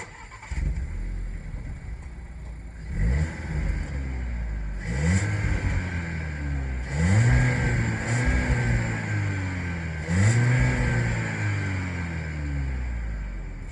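A Spanish car's engine starts and then revs several times, each blip sweeping up and falling back in pitch over a steady, throaty idle, moderately loud throughout.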